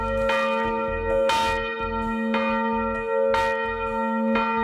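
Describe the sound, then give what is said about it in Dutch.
Church bells in Voorburg strike the quarter hour. Several evenly spaced bright strokes fall about a second apart, each ringing on into a sustained metallic hum. “het zijn de kerkklokken van de Sint-Martinuskerk in Voorburg. Al 75 jaar lang slaan ze zonder probleem elk kwartier.”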